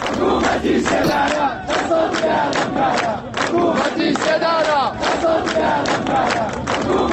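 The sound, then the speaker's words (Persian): Crowds at Mahsa Amini's funeral in Saqqez chant anti-government slogans. Many voices shout in unison in a steady, repeating rhythm of loud bursts with short gaps, and the massed cries stay strong throughout. “شرکت کنندگان در مراسم روز شنبه شعار دادند: حکومت اعدام، دست از جنایت بردار.”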